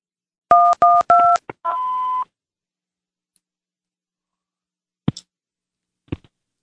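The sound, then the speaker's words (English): Telephone keypad tones while navigating a voicemail menu: three crisp dual-tone beeps in quick succession, a short blip, then a longer steady tone. After a pause come two sharp clicks. “To replay, press 1. To re-record, press 2. To send your message, press 3. Or press 0 for the operator, and your message will be sent.”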